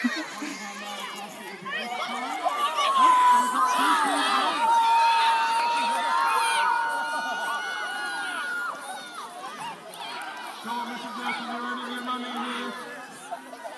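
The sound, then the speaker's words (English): Children shouting and cheering during a race at a school sports day, a continuous, fairly loud crowd babble of young voices that swells early on and carries through to the end with scattered cries and calls. “I'll try and record when they do a race because it gets very noisy, then it's quite funny.”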